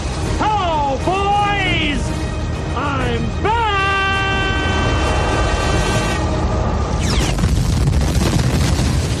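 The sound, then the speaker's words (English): A film explosion as a fighter plane flies into an alien ship: loud voices shout with rising and falling pitch, then a heavy roaring blast bursts in and rumbles on to the end. “Randy Quaid's character, an alcoholic former fighter pilot and Vietnam War vet, sacrifices himself by flying into the alien ship, destroying it.”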